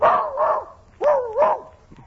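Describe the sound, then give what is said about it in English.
A small dog barks in two high, tonal double yaps separated by a short pause, each pair rising and falling quickly, with no talk over it. “Nice little doggy, what'd I do with the dog?”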